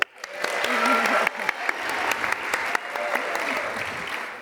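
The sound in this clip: An audience applauds a couple introduced on stage. Dense, steady clapping stays fairly even throughout, with a few sharper claps standing out.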